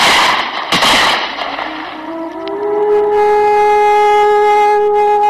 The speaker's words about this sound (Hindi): कप्तान के मरते ही वृद्ध पर गोलियों की बौछार हुई।